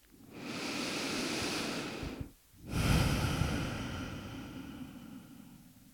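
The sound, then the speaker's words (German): Deep breathing during a guided meditation: one long, airy inhale, then a short pause and a slow, full exhale, both soft and unhurried with no other sound. “Atme tiefer ein und nochmal aus.”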